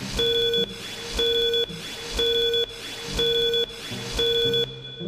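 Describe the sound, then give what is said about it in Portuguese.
A five-second time signal tone sounds as five short, clear, high beeps, one per second in an even rhythm, over a steady noisy background. “Atenção, senhoras e senhores, para o toque de 5 segundos.”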